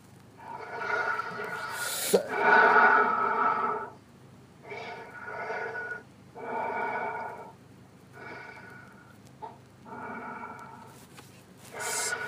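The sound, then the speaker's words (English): A caller breathes heavily in and out through the mouth over a telephone line, in a series of loud, raspy, half-voiced breaths of about a second each, separated by short pauses. “Just breathe in and out 5 times heavily with your mouth. Okay. With your mouth. Heavily. Yes. I must hear you breathe in and out 5 times.”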